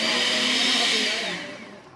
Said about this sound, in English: He peels the fruit and pops it into a blender in order to make a picante sauce.